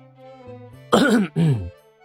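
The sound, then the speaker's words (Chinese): A man's feigned throat clearing, two rough, gravelly bursts in quick succession, the second slightly shorter and lower, standing out loudly against a faint, quiet background. “假装清了清嗓子”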